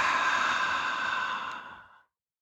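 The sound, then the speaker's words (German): An audible exhale through a slightly open mouth: one long, breathy sigh holds steady, then tapers off gradually into silence. “Ausatmen durch den leicht geöffneten Mund, vielleicht hörbar.”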